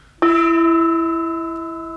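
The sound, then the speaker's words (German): A single gong stroke rings out alone with a bright, resonant tone full of clear overtones, sustaining and slowly fading over about two seconds. “Gong!”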